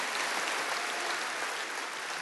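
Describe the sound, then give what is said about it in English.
Applause from a standing church audience welcoming a guest pastor as he comes up, a thick, unbroken wash of many hands clapping at an even loudness throughout. “Would you stand and just give a good Seacoast welcome to Brady Boyd as he comes?”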